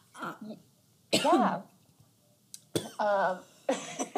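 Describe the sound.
Coughing and throat clearing from someone with something stuck in the throat: a few harsh, raspy bursts separated by short silent gaps, with no talking.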